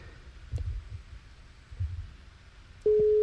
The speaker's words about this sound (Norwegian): Der får tre ring. Har dere ikke svart, så legger vi på.